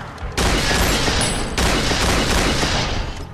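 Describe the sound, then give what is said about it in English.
Gunfire rattles in a firefight as a dense, loud roar of shots that starts abruptly. It continues almost without a gap, with a brief dip and a fresh surge partway through. “Jack dials Jason and returns fire.”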